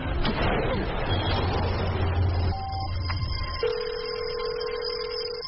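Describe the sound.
A telephone call sounds inside a moving vehicle: electronic tones and steady sustained beeps ring out over a continuous rumbling engine noise, and the tones grow clearer in the second half.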